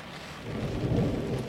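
A thunderstorm with rain: a low thunder rumble swells and peaks midway over a steady hiss of falling rain, loud and without voices.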